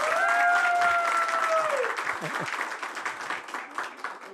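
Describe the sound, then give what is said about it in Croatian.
A television studio audience gives a big round of applause for the show, loud and full at first with a voice held over the opening, then thinning into choppier clapping that eases off slightly. “Dajte jedan veliki aplauz za emisiju večeras.”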